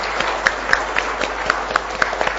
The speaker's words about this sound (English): Shall we give them a big thank you? Great clap for all of their hard work.